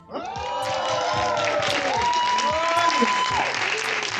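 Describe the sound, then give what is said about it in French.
Live audience applauding and cheering at a public taping after a mentalism stage show, steady loud clapping throughout with whoops and shouting voices rising above it. “Et c'est la raison pour laquelle nous tournons cet épisode en public, avec un public en folie.”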